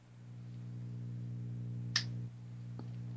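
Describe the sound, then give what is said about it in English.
A light switch clicks once, sharp and crisp, as a light is turned off over a steady low electrical hum. A fainter tick follows a moment later. “Don't know if you heard that. That was me turning a light off. Yeah, I heard a click.”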